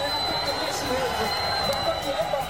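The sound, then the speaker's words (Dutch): Crowd noise from an ecstatic audience in Leiden reacting to a saved Mbappé penalty during a football match: a dense, steady roar of voices and cheering that holds at an even level throughout. “Er werd namelijk een penalty tegengehouden van Mbappé. Ja, en toen klonk dat zo in Leiden. Ja, een uitzinnige menigte.”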